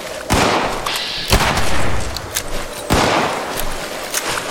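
Gunfire from a gun in a video game: a few loud, sharp blasts, each trailing into a sustained noisy rush that fills the gaps between shots.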